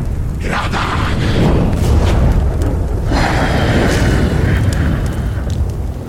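Fire elemental combat effect: loud roaring, whooshing bursts of flame with a deep, continuous rumble that swells and surges in waves across the whole stretch.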